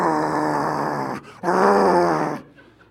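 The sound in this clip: A person imitates a dog's groaning growl: two drawn-out, rough, voiced growls with a short pause between them, the second one fuller and longer.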